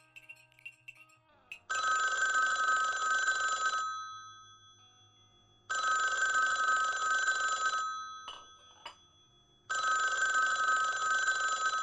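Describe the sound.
A telephone rings in three long, loud trilling bursts with pauses of about two seconds between them, the bell-like tone steady and bright.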